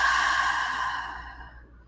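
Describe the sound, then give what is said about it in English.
A deep breath, heard as a loud, airy sigh that starts strong and gradually tapers away into quiet over about two seconds. “a deep breath in, deep breath out.”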